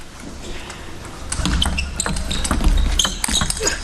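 A table tennis ball clips the edge of the table during a professional match, giving several sharp, light clicks and taps over a busy background rumble.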